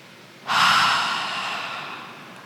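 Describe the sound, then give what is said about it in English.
A single deep breath during a guided breathing exercise, starting abruptly as a soft, airy rush and then slowly tapering off. It stands alone with no talk over it. “let's take 3 deep breaths. Inhale and exhale.”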